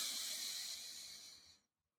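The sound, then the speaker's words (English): A deep breath is drawn in through the nose during a guided breathing exercise. It is a soft, steady, airy hiss that lasts about a second and a half, fades, then stops into silence. “Breathe one more time in through the nose.”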